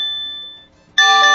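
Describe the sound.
A built-in Google alert tone on an Android phone rings as a sustained electronic note that fades, then breaks off in a brief silence before a loud, bright, multi-toned chime bursts in.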